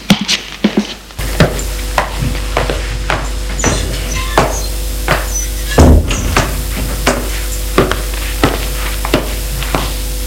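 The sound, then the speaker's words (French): Servants preparing breakfast in a kitchen: many sharp clinks and knocks of utensils at an irregular pace over a steady sizzling hiss, with stirring sounds throughout. “Les domestiques qui vont aller préparer le petit déjeuner.”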